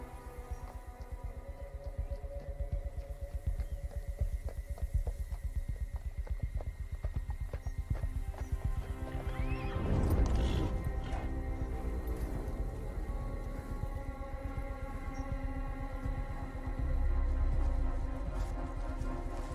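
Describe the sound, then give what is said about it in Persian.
Clip-clop of a ridden horse's hooves approaching: a steady, rapid rhythm of many hoofbeats runs throughout at moderate loudness, swelling slightly around the middle and again near the end. “نگاه کوفون به اسب سواری که نزدیکشون میشه.”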